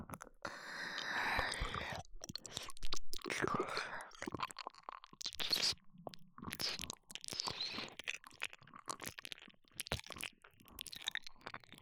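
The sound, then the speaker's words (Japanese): Ear-licking mouth sounds, close and continuous, with many wet smacks, slurps and crackly clicks alongside soft breathy noises. “ではサポートとしてお耳を舐めさせていただきます。”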